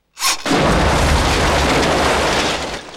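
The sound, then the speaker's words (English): An explosion blasts debris and timber out of a mine entrance, starting with a sudden loud burst that swells into a sustained, roaring rumble and barely fades before the end. “Marty and Doc shelter behind a gravestone as debris and timber are blown out of the mine entrance. Marty gets to his feet. I think you woke up the dead with that blast.”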